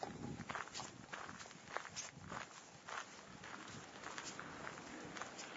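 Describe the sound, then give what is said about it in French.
Footsteps walk steadily through the forest of Rambouillet on a winter morning, a faint, regular series of many soft crunching steps heard alone with no talk. “Me voilà donc en train de marcher dans la forêt de Rambouillet,”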